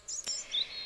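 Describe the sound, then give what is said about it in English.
Birds sing in a few quick, high chirps followed by a thin whistled note. The sound is faint and brief, with no talk. “what I'm doing tonight is playing songs about birds and listening to some bird singing.”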